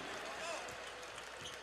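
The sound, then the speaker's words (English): A basketball is dribbled on the court during a Warriors–Suns NBA game. A few faint bounces sit beneath steady arena crowd noise and courtside commentary. “Livingston bouncing with a dribble.”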